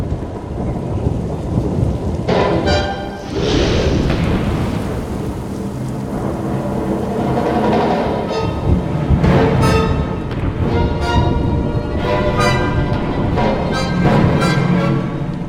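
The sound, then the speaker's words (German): Rolling thunder over steady rain, with several loud rumbling bursts rising and fading while the downpour hisses continuously beneath them. “Aber der Donner!”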